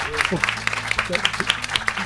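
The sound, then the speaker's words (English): An audience applauds, sharp claps landing in a fairly regular rhythm at a moderate level, while a person keeps talking over them. “You probably should applaud yourselves, but you should definitely applaud Joe and Shauna.”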